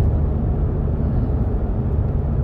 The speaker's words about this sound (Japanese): 今もね、車でこうやって夜走ってるとすごくね気持ちいいし